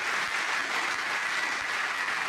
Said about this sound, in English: Let's give a round of applause for our music ministry here at Pleasant Valley South.